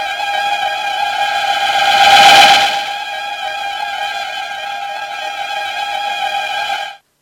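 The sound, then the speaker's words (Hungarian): Flamethrowers fire a sustained hissing roar with a steady ringing tone, swelling into a broader rush in the middle before cutting off abruptly. “No, akkor indítsd a felvevőgépet. Én meg a lángszórókat.”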